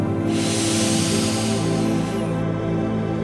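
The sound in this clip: A deep inhale and exhale during a guided relaxation and meditation session: one long, loud, airy rush of breath lasting about two seconds, set over sustained low musical tones.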